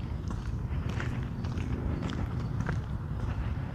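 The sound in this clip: Footsteps of a person out for a walk, a soft, steady series of muffled steps over constant low rumble, faint and with no talking.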